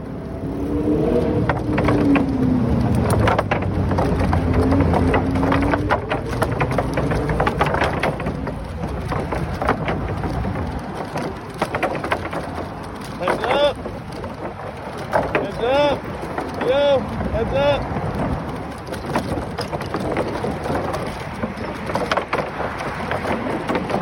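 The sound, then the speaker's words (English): Wooden planks of the Esplanade rattle below during a ride with a view of the Statue of Liberty and Midtown Manhattan: a continuous clattering rumble mixed with wind noise, irregular clicks and a few thin squeaks. “He says he always loves the sound of the wooden planks that make up the Esplanade rattling safely below me. That and the view of the Statue of Liberty and Midtown Manhattan make this ride a feast for the senses. So here's a flavour of that now.”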